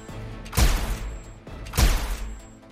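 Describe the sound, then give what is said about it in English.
Gunshots fired around a corner: two heavy booming cracks about a second apart, each a loud burst with a long fading tail, and no voices. “He weakly shoved her and then fired a handful of shots around the corner.”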